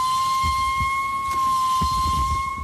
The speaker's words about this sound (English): And they take turns. It's two walruses. They sound like distant trains.